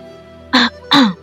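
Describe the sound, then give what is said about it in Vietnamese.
A dry cough and throat clearing in two short, loud, rasping bursts, the second slightly longer, heard alone over a faint steady background. “Bạch Ngọc Đường ho khan một tiếng”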